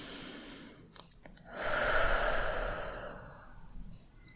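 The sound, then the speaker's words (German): A deep breath in and out during a guided relaxation exercise: one long, soft, airy rush of breath that swells and then fades slowly, with no talking. “Und dann atme noch einmal tief ein und tief aus.”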